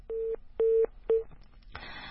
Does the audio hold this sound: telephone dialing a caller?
yes